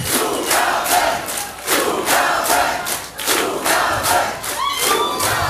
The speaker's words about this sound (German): Oh, ich glaube, wir gehen noch mal raus. Sie wollen noch eine Zugabe.